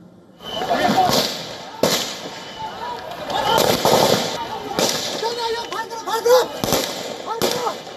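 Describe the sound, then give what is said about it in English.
Sharp gunshots crack out as security personnel in Jahanabad fire several rounds into the air to control an escalating situation. The bangs come at irregular intervals over raised voices and crowd noise. “While in Jahanabad, security personnel fired several rounds into the air to bring the escalating situation under control.”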